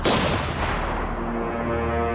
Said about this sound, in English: Patricia Rohrer fired a single shot into Joanne Katranak, and when the pistol jammed, beat her to death.